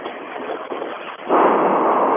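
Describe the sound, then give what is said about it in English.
A rushing hiss comes from an oxygen tank as it is turned on, starting rough and uneven, then opening into a louder, steady flow of air. “He's trying to get his oxygen tank turned on.”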